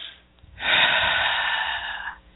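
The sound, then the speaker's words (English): One deep breath drawn in during calm spoken guidance: a long, airy, breathy inhale lasting about a second and a half, fairly loud and heard on its own with no talking. “take the time, take a deep breath in”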